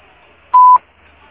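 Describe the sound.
A single short voicemail beep before a message is recorded: one steady, clear mid-high tone lasting about a quarter second, alone over faint line hiss.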